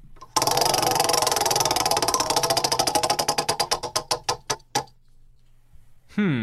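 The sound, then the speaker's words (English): A prize wheel used to pick discussion topics spins, its pointer ticking in a rapid, dense rattle that gradually slows into widely spaced, sharp clicks before stopping. A voice begins shortly afterwards. “All right, here we go. I'm gonna spin the wheel.”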